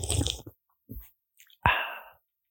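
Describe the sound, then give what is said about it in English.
A can of Coke Zero opened close to the mic for ASMR: a few soft rustling and clicking sounds, then a sharp crack followed by a fizzing hiss that fades over nearly a second. “That actually sounded refreshing. Did it? Yeah. It's actually a tin of White Claw. I'm joking. It's Coke Zero.”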